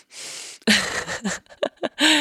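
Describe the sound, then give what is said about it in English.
A strained breath drawn in through a stuffy, congested nose: one short, hissy, airy inhale, followed by further voiced breathing sounds. “I don't know if you can tell just when I say breathe in, this is me trying to breathe in through my nose.”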